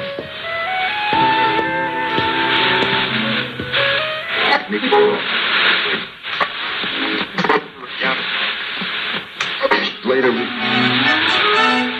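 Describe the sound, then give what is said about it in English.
Crackling, scratchy interference from an old radio in a gumwood cabinet breaks up sustained musical tones with many rough noise bursts. A warbling, wavering tone slides upward near the end. “But as soon as she'd made her peace with the radio, the interference began.”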